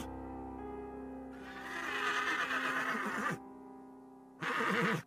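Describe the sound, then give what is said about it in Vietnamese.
A white horse neighs in two whinnies, a long loud one followed after a pause by a shorter one, over a steady low background tone. “Tất cả những gì ông Thanh nghe được chỉ còn lại là tiếng hí của con trắng mà thôi.”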